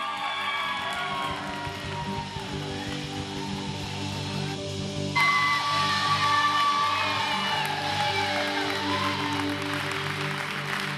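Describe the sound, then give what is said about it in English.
An audience applauds and cheers to welcome a speaker, with dense, steady clapping and whoops that run for about eleven seconds and swell louder around the midpoint. “Put your hands together. Help me welcome up the amazing Jean Kaiser as she comes to share.”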